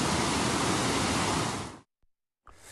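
Floodwater pours over a road from a clogged culvert as a loud, steady, hissing roar. It cuts off abruptly into a short silence, then the rush returns more faintly.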